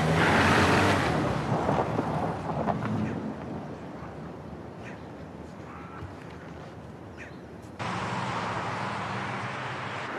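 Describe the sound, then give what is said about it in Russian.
A car's steady engine rumble and road noise as it drives off, mixed with wind buffeting. The sound is broad and fairly even, dips slightly in the middle, then steps up louder near the end. “Тыкая пальцем, он садится в свой автомобиль и уезжает.”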